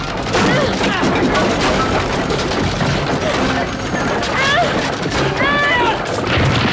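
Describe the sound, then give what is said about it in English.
Hailstones pour in through a ripped-apart roof, a dense, unbroken clatter and pounding of hard impacts that stays loud and steady throughout. “roof is ripped apart and the hailstones rain in”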